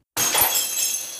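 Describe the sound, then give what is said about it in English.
Glass shattering is used as a sound effect for a heart breaking: a sudden sharp crash breaks the silence, then a bright, glittering, tinkling decay fades slowly with no voices. “That was the sound of our heartbreaking.”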